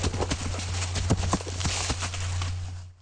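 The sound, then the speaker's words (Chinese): Horse hooves clip-clopping as cowboys ride in the woods, a run of irregular hollow clops at walking pace over a steady low hum, fairly loud, then fading out at the very end. “他们喜欢星期天到树林里骑马。”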